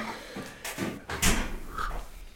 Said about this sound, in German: Jetzt mal gucken, was der Kühlschrank zu bieten hat. Ah, es klimpert.